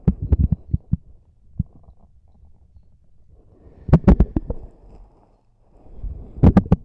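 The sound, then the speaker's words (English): A mouth wetly sucks something in and out, giving bursts of quick clicky, slurping pulses at the start, around the middle and at the end, with near-quiet gaps between them. “When I stop sucking it in and out, there's not a ton of noise. And when I suck it in and out like this, there's just so much going on.”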